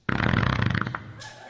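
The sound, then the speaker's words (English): A fart: a single loud, rumbling, sputtering burst lasting about a second, heard alone with no talk over it. “Is that a fart? It's the shrimp.”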